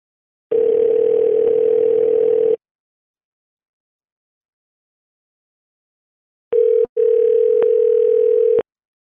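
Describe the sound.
A telephone dial tone while a call back is placed, a steady pure hum heard in two separate stretches with silence between, the second briefly interrupted just after it starts.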